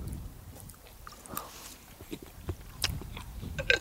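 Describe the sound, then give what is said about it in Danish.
Chewing a whole cracker: a faint, steady run of dry, crunchy crackles and soft mouth sounds, with a few sharper crunches near the end. “Jeg har puttet en helt kiks ind i munden.”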